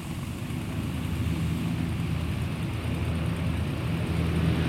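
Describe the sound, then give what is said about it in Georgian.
A Chilean mail airplane in flight gives off a steady, low engine drone, a continuous rumbling roar that holds even and unbroken throughout. “აგერიზიც, ჩილეს საფოსტო თვითმფრინავი.”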